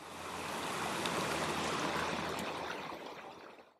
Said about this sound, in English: I'm currently sitting on a rock in the pouring rain. I just ran 3 miles out on a trail,